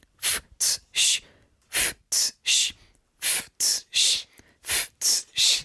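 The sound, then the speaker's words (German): A beatboxer's warm-up breathing exercise: twelve sharp, hissing breath bursts in four groups of three, each group two quick puffs followed by a longer one, with short pauses between groups. “Weil Beatbox sehr körperlich ist und du auch ein bisschen Körperspannung brauchst, fange ich mit Atemübungen an, wie zum Beispiel.”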